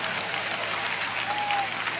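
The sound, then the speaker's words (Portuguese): A church audience clapping hands during a service, a steady, dense wash of applause at an even level throughout, with no voices standing out above it. “Quem tem esta paz pode bater palmas”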